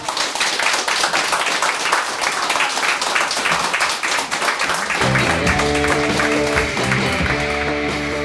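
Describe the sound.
Live audience applause and crowd noise from an American concert recording, dense and loud for about five seconds before a band starts playing beneath the continuing crowd sound.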